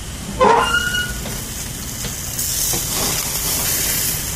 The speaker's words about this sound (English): Listen to them burgers talk.